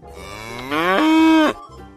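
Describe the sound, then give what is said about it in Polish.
A cow moos once in a single drawn-out call lasting about two seconds. The call is loud and alone, rises in pitch, then holds a strong, steady tone before stopping abruptly. “To jest krowa.”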